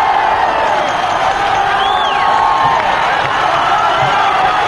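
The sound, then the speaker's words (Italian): A rock concert audience cheers loudly between songs in a dense, sustained roar of voices and whoops. A single whistle rises and falls partway through, and scattered claps sound underneath. “Sentiamo quello che succede. Sentite il pubblico come inneggia.”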